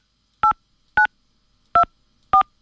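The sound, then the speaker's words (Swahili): Telephone keypad tones as a password and pound key are entered: four short, loud, clean dual-pitched beeps at uneven intervals, with silence between them. “Please enter your password followed by the pound key.”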